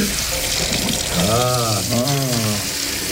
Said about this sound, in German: Das Wasser wird jetzt aus dem Wasserhahn sprudeln, und zwar auf dein Haupt hinauf.